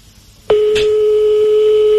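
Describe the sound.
A telephone rings during an outgoing call: after half a second of near silence, a loud, steady single-pitch tone starts abruptly and holds to the end, with a brief click just after it begins.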